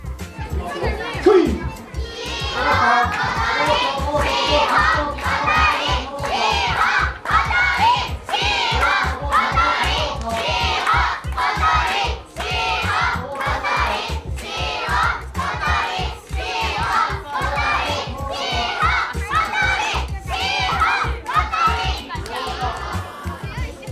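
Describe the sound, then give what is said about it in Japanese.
Families cheer for young wrestlers at a children's sumo tournament: a lively, continuous crowd of children's and grown-ups' voices shouting and chattering, with repeated bursts of calls throughout. “じいちゃん、おばあちゃん、小さな弟や妹たちも土俵上のちびっこ力士たちを応援しています。”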